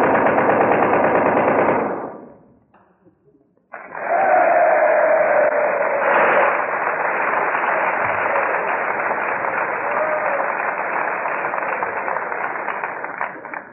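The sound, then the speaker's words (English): Machine gun fire at a stage demonstration, the crew commanded to fire toward a mock enemy line: a short loud burst, a brief pause, then a long sustained, dense rattle of rapid shots lasting to the end. “your boys and your commands got that machine gun in action in 36 seconds.”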